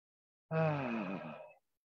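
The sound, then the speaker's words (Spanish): A single voiced, moaning exhale during a group breathing exercise: one sustained breath of about a second, loud at the start and fading slightly before stopping, alone in silence. “Vamos todos a respirar.”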